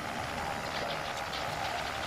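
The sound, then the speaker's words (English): A motorized tie rack runs loudly, giving a steady, rough mechanical whirr that holds at an even level for the whole stretch with no talk over it. “It's awfully loud. Well, you can always take the motor out and use it as an ordinary tie rack.”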